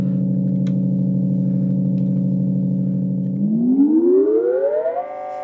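A synthesizer tone holds a steady, buzzy, harmonic-rich pitch for about three seconds, then glides smoothly upward over roughly a second and a half and settles on a higher note, alone and loud throughout.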